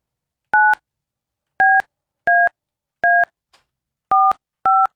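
Six DTMF touch-tone beeps ring out as a telephone number is dialed, each a short, steady, two-pitched tone set apart by uneven gaps, with no voices.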